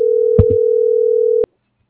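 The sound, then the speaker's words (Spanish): A telephone line tone holds steady at one pitch for about a second and a half while a call is dialed, with a short low knock early on, then cuts off abruptly into silence. “está marcando. Se le estaba marcando.”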